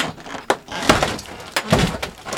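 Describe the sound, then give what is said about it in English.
A flood-damaged refrigerator door being pried open, with a few sharp knocks and thuds mixed with creaking, scraping noises. The sounds are moderately loud and irregular, with no talk. “He pries open a fridge and points out a muddy shelf of ice above the crisper”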